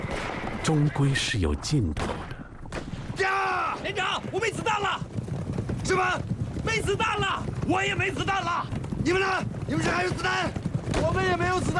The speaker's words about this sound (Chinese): 在这样急速的行进中，依然能够百步穿杨，每一次枪响，几乎都有一个日本骑兵翻身落马。